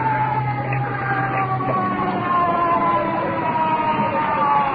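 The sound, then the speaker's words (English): An ambulance siren wails in a sustained, high, slowly gliding tone that stays steady and loud across the whole stretch. “Let's hope that's the iron lung. That's not the ambulance. Is that the ambulance yet?”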